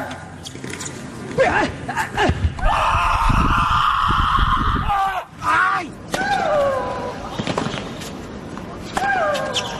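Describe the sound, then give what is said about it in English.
Athletes grunting and yelling with effort during sports, a few loud, strained vocal bursts and groans rising out of a rough, noisy background. “These grunts don't generate any extra strength or power. Vocalizing just helps athletes focus, and their vocalizations are a big part of the soundscape of sports.”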